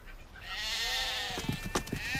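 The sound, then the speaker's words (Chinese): A sheep gives one long, quivering, wavering bleat as sheep and cattle are driven onto a road, followed by a few soft low knocks. “顺赶着牛羊上路了。”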